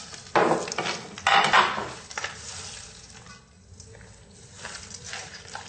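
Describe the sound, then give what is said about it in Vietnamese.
Filling being stirred together with cooking oil in a bowl, giving scraping, clattering sounds. Two louder bursts come near the start, then softer, uneven stirring continues to the end. “Trộn đều cho dầu ăn.”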